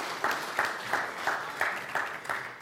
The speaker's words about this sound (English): Let's give our college students a hand.